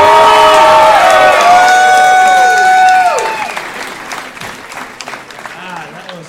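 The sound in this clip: Loud audience applause and cheering at the end of a live show, with whoops and shouts over dense clapping. After about three seconds it thins to lighter, scattered claps.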